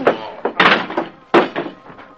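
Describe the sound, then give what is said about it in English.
Men pound on a locked door, making a short burst of heavy, irregular thuds and knocks, with a few strong blows and lighter hits between them. “While men pounded on the locked door, Britt Reed”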